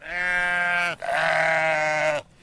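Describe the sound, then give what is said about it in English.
Sheep bleating while grazing on buckthorn-covered land for a local farmer: two long, loud, wavering bleats with only a brief gap between them, heard alone with no talk. “This year, sheep from a local farmer are grazing there.”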